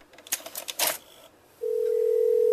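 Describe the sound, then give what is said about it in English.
A telephone call to a police station starts with a few quick clicks and taps. A steady, loud ringback tone then sounds without a break. “he again phones the Peterborough police station and gives them one last opportunity to comply with his cease and desist”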